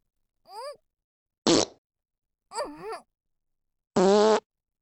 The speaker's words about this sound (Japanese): ちょっとマッサージするだけでこんなにいっぱいのおならが出ちゃうんだよ。